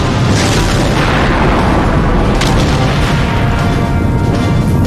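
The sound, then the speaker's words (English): A space station's big gun explodes in a video game, giving a loud, dense, continuous roar of blast noise that holds steady for the whole clip with no voices. “Its big gun is about to fire. Oh no! The gun explodes!”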